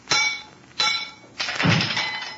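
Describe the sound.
A stick strikes a chunk of shiny steel casing that gas has weakened, and the brittle metal breaks apart like an egg. Three sharp cracking blows ring out, and the third is longer with a crunching break.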